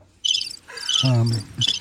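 Crickets chirp in a few short, high-pitched trilling bursts, with a brief gap between each.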